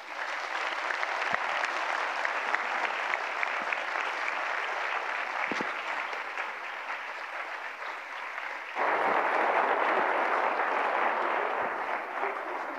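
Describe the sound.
An audience at a Winona State event applauds to welcome a speaker. The clapping is dense and continuous for about thirteen seconds and grows louder near the end.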